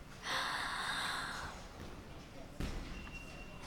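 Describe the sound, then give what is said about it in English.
A deep breath drawn in during a pause in an exercise workout, heard as a steady, breathy rush lasting just over a second, followed by quieter background sound and a single brief thump. “Take a quick break, all right? Breathe with me. Breathe in.”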